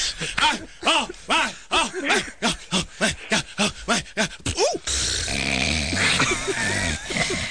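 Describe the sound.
A man snoring: a rapid run of many rhythmic, rasping throaty snorts with a regular pulse, giving way to a rougher, continuous noisy stretch near the end.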